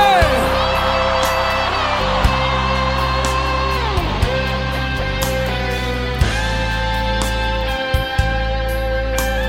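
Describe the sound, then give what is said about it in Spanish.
Loud crowd shouting and cheering at a live Christian worship concert, a continuous roar of voices with occasional whoops, set over sustained instrumental tones and steady low bass. “¡Grite fuerte! ¡Grite fuerte!”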